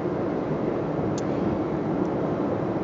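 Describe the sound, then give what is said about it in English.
Road noise inside a car being driven home, an unbroken hiss and low rumble at an even level, with no voices. “I'm actually driving home right now from seeing her.”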